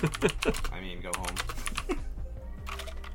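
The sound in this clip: Typing on a computer keyboard: rapid, irregular clicking keystrokes run throughout, partly under people talking.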